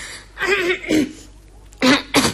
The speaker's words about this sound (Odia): କଣ ପୁଣି କାଶ?